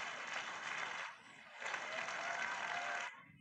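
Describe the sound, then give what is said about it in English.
Audience applause at a religious gathering: a dense, steady wash of clapping that thins briefly near the middle, swells again, then stops. “Give another round of applause.”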